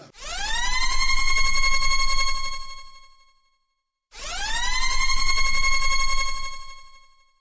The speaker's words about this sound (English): sound the spoiler klaxon!